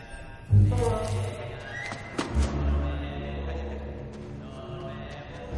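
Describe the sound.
Horses carrying riders enter: a loud whinny rings out near the start, followed by heavy thuds and clopping hooves over a continuous low rumble.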